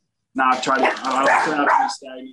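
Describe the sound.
A dog barks and yips in one continuous two-second burst, followed by a short, quieter yelp at the end.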